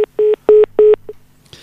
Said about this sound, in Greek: Και πάρτε και ένα τηλέφωνο τον παπά πριν κλείσουμε.